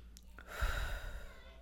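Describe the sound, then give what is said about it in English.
A deep breath is drawn in through the nose, a faint, soft rush of air lasting about a second. “Everyone take a deep break, deep breath. One more. In through the nose this time.”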